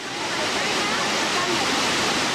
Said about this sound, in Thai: ตื่นตากับความงามของน้ำตกที่ไหลมาจากยอดเขาภูลังกา